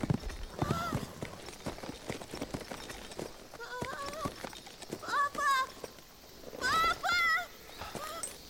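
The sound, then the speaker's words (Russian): Horse hooves clip-clopping as a man rides, a loose run of soft knocks under people talking and calling out. “Мужчина запрыгивает на лошадь.”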